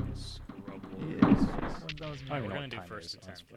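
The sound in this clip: A gunshot in a video game, a sharp blast amid animated male talk during a competitive match, with a burst of sound standing out briefly from the voices.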